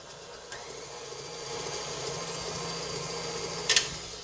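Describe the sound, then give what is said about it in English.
An electric mixer whirs through chocolate revel bar batter, switching on with a click into a steady motor hum that grows slightly louder, with a brief rattle near the end. “Okay, and now I'm going to put it back in there, reinsert it, and mix it again for a second.”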